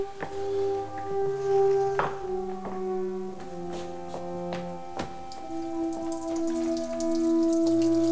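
Urine splashing into water outdoors in winter, a soft, steady patter of trickling drips running under quiet sustained musical tones.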